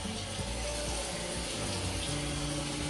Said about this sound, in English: I'm gonna rinse my face off.